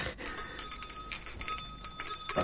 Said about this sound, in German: Hört endlich auf mit der Klingelei!